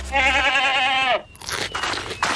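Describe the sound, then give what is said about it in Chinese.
An animal gives one long, wavering bleat, then crunches cereal grain in a run of crisp, crackly chewing bites. “再说了，加比最喜欢吃的就是他的谷物了。快吃吧，加比，好吃好吃，大口的吃。”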